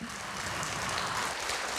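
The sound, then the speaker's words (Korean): Audience applause after an ensemble's stage performance in Daejeon: a fairly quiet, even patter of many hands clapping that goes on without pause, with no voices over it. “네, 저와 같은 생각이시라면 다시 한번 큰 박수로 좀 화답을 부탁드리겠습니다.”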